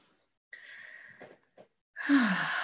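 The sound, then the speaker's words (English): A deep breath ends in a loud, breathy rush of air with a slight falling voiced sigh, after a brief tonal vocal sound and a short pause of near silence. “So wonderful to take that breath.”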